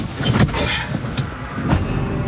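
A large Volvo truck gives a steady, loud rumble of engine and road noise with a few brief knocks and clunks throughout.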